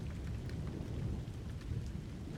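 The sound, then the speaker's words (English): Heavy rain pours as a dense, steady hiss with a low rumble underneath, continuous and fairly soft, with no voices. “Yeah, the rain's pretty bad.”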